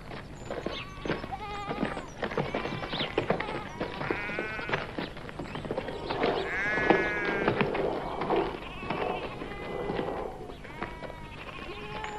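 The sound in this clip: A flock of sheep bleating: many overlapping, wavering calls follow one another throughout, some loud and some fainter, with no talk.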